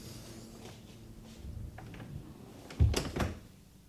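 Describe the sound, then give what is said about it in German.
A door being closed, with a couple of soft, muffled knocks near the end. Faint and low, with no voices. “Erlauben Sie, dass ich hereinkomme und dass ich die Tür wieder zumache?”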